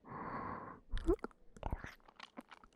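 Soft, wet ASMR mouth sounds of light kissing and eating. A breathy hiss gives way to a quick run of small smacks, clicks and moist crunches, all quiet and close.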